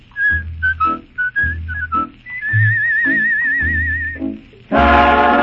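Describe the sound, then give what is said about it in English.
Melodic whistling of a cowboy tune: a string of short, clear notes, then a long warbling held tone over a low accompaniment, ending as a fuller burst of music swells up loudly. “For a whistling cowboy.”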